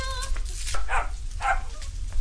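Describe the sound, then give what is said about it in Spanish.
A small puppy gives two short, high yips or whimpers, spaced about half a second apart, over a low background rumble. “Miren lo que les traje. Bueno, cuídenlo al perrito porque es chiquito, ¿eh?”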